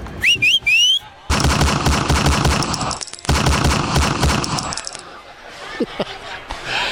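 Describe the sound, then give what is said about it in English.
Two long, dense volleys of rapid gunfire come after a few short rising whistles. The loud, sustained bursts are separated by a brief gap, and fainter mixed sounds follow at the end. “Those shots were meant to scare, not maim or harm.”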